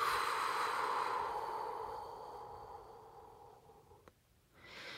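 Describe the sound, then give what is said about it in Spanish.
A slow, deep breath during guided meditation: a soft, airy exhale fades gradually over a couple of seconds into near silence, and a faint new breath begins at the end. The breathing is quiet and heard alone. “Inhala, exhala esa carga.”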